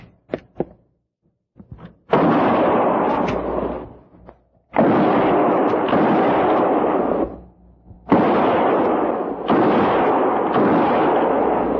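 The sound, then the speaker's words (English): Rifle shots fired between trees: a few faint sharp cracks come first, then several loud, sustained blasts of gunfire, each a broad roaring burst lasting a second or two, separated by short gaps with no voices. “We'll try a diversion. Might bring them out. And no more than 3 rounds each. Fire between the trees.”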